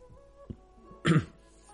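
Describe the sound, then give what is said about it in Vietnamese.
A single hasty, dry cough from a team leader, brief and sharp, rising out of near silence for a fraction of a second. “Bên trong Ngọc Giản truyền tới tiếng ho khan vội vàng của đội trưởng.”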